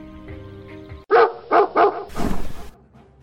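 A dog barks three times in quick succession, loud and sharp, and then a rougher, noisier burst of sound follows before it quiets down.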